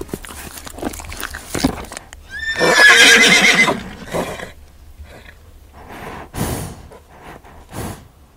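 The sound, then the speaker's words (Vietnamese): A ridden horse gives one loud, long, quavering whinny. Softer scattered noises come before it and a few short bursts follow it. “Con ngựa hí vang rợn cả tóc gáy.”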